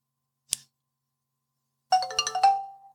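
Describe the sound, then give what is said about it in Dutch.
An electronic device's guide sound set to English plus beep: a single short click, a pause, then a bright melodic run of chime tones that holds one steady note and fades out. “Dat is dus de standaard English plus beep.”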